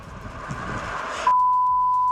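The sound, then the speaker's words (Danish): A steady, loud censor bleep covers a word in a Norwegian radio segment. It cuts in abruptly after a stretch of dense, noisy sound and holds one flat, unwavering tone to the end. “Kjære lytter, du må sende oss en melding i appen NRK Radio med hvem eller hva vi har bipet ut i det her.”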